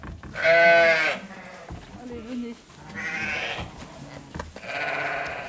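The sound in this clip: Ewes in a flock bleat in three long, wavering, fairly loud calls, with quieter, rougher animal sounds filling the gaps between them.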